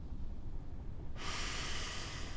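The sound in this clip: A person draws one slow, deep breath in during a guided relaxation exercise. The soft, airy hiss swells in partway through and holds steady to the end, quiet over a faint low rumble, with no talk.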